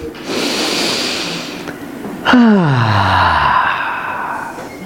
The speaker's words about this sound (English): Let's take a breath together.